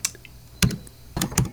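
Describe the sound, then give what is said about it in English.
Typing on a computer keyboard produces a few sharp, irregular clicking keystrokes, with short gaps between them and no voices. “Sorry, can you stop typing for 1 second? I can't think.”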